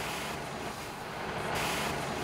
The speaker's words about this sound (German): Doch erst muss er ein dieselbetriebenes Waldbrandlöschfahrzeug fahren.